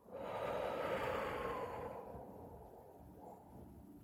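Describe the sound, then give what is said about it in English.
A deep breath drawn in and let out slowly, a steady, airy inhale followed by a quieter, drawn-out exhale, with no talking. “take a deep inhale and a slow exhale”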